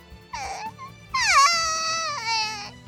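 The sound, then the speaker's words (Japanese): Exaggerated wailing like a mourner at a funeral: a short, high sob, then a long, loud, quavering wail that dips in pitch early and then holds, with no talk. “そんなお葬式みたいな泣き方されても。 死んでませんから。”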